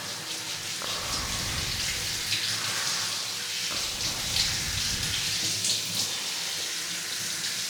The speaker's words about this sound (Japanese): 後ろも流しますね。